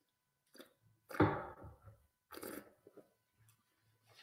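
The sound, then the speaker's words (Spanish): Someone takes a drink. A few soft slurps and swallows come with small mouth clicks, quiet and without speech, spread over several seconds. “voy a beber un poco.”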